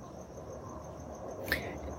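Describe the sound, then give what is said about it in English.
Crickets chirp faintly and steadily in the background during a quiet pause, a thin high trill that holds throughout, with one brief noise burst near the end. “can you hear the crickets in the background? Like, let's be quiet for, like, 3 seconds.”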